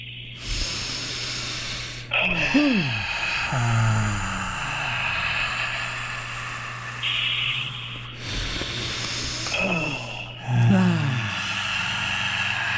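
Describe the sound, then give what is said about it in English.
Deep breaths drawn in through the nose and let out during a guided breathing exercise: several long, hissing breaths with snorting nasal texture, rising and fading in slow cycles over a faint steady low hum. “And on the exhale, let it all go. Let's get these done in 3, 2, 1, all the way in through the nose.”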